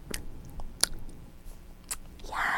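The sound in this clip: Soft, wet chewing and mouth smacks of ice cream being eaten during a feeding game with a baby, faint and intermittent, with a few sharper clicks.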